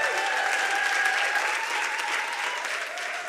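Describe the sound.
Applause from a church audience at a Baptism Sunday service, a dense and steady patter of clapping that runs without a break and eases slightly toward the end.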